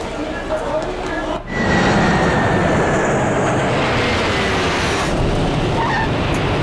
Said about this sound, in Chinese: 由阿姆斯特丹飞往江陵的 CE210 次航班现在飞抵本站。